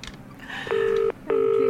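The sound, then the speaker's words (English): A telephone number is being dialled: two steady touch-tone beeps, loud and evenly spaced, sound over a low background hum. “Well, I will start ringing up students.”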